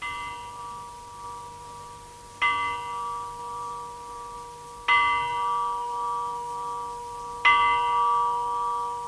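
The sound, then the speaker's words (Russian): A village bell in a Georgian mountain village rings in the morning with three evenly spaced strikes. Each is a bright metallic clang with a long humming decay, and the previous toll is still sounding at the start. “Это колокол моего села. Он звонит по утрам, возвещая, что скоро начало занятий в школе.”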